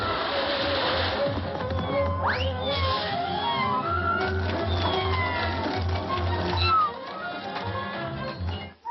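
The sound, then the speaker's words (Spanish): A kitten meows in a cartoon scene where it is in danger of drowning; one clear sweeping meow rises and falls over a dense, busy background of other sound. “¡Salva a ese pobre gatito!”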